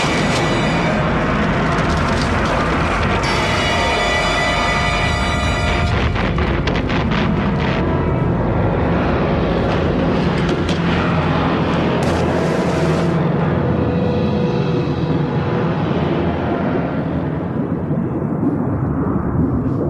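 A movie explosion erupts as a loud, sustained roaring rumble with dense crackling and booming, filling the whole stretch without a break.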